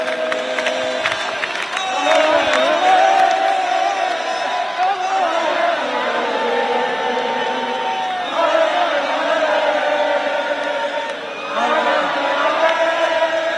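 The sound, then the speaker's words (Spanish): Hundreds of Barça fans celebrate at Canaletas square in Barcelona, a sustained roar of cheering and whooping with sung chants swelling and dipping in waves, loud and continuous throughout. “Euforia en Barcelona, como escucháis. Centenares de personas ahora en Canaletas, se van acercando más barcelonistas.”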